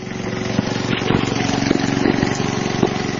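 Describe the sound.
A petrol generator runs inside a shop in Kabul, giving off a steady droning hum with low tonal harmonics and a few faint knocks and clicks over the constant engine note.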